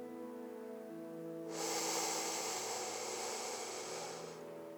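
A single slow, deep breath taken during a relaxation exercise: a long, soft, airy rush that swells in, holds, and fades, faint over a quiet sustained tonal background.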